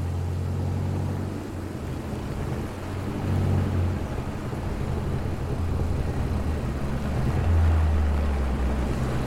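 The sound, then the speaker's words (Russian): A car drives along a road through a pine forest clearing toward the gates of a sanatorium, its engine giving a steady low rumble that swells slightly twice and continues throughout. “По дороге едет автомобиль к воротам санатория.”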